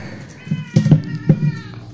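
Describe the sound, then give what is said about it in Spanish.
A pet cat meows in a radio studio, giving several short, nasal meows in quick succession, with soft background murmur between them. “Tomó por asalto los micrófonos de la radio. Coco es el gato”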